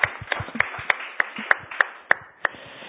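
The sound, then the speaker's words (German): Crisp handclaps follow presentations at a German-language panel discussion. They come in a steady, evenly spaced series of sharp, separate claps rather than a dense wash, and sound like only a few hands. “Einfach mal schnell einen Applaus für eure Präsentationen.”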